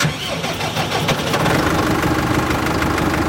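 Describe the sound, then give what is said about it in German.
A tractor pulling a mower drives through a hay field, its engine giving a loud, steady droning rumble with dense mechanical noise throughout and no voices. “Also wir fahren heute mit dem Mähwerk. Das ist immer die allererste Arbeit. Und ja, fahrt einmal mit der Runde.”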